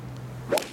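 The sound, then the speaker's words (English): A single sharp crack of a golf club striking the ball on a tee shot at the first hole of an open championship, heard as one brief snap near the end over a steady low hum. “And that's the sound of club on ball.”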